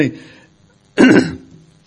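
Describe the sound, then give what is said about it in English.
A single abrupt, loud, breathy burst like a sneeze comes about a second in, right after a short stretch of speech during a Bible reading, then trails off into a softer tail. “If I can make it through this sneeze, we'll...”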